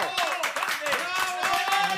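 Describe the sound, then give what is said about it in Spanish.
Applause for guests from the Galicia Friki Film Festival, a steady patter of hand claps that runs the whole way through with voices sounding over it. “Tenemos con nos os amigos de Galicia Friki Film Festival, para os que imos pedir un fortísimo aplauso.”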